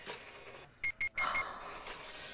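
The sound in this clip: An old office printer mechanism whirs faintly, with two short, sharp high-pitched mechanical bursts followed by a longer grinding whirr, then a low steady hum.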